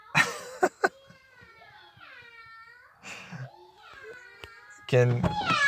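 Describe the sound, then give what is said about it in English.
Children making playful meow noises, voices imitating a cat with a few high, gliding mewing calls between short bursts of child vocalizing. “My kids are making little meow noises because that's a silly thing that we do.”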